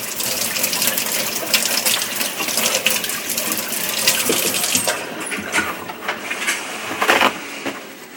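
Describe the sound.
Running tap water splashes over hands being washed at a kitchen counter, a steady, dense rush with a few sharper splashes toward the end and no voices.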